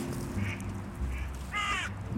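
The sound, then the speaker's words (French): Ducks and geese call on a Loire riverbank near Tours, with a few short, bright honking calls standing out over a steady low rumble. “Bon, ça, c'est le canard, ça. Derrière, on entend les oies. Tout le monde se parle, là.”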